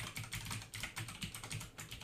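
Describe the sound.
Typing on a computer keyboard, many rapid, uneven key clicks and taps in a steady stream, faint and without voices.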